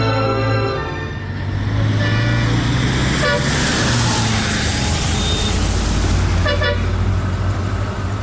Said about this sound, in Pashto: استاد موټر دې لکچنډه ته ودراوه.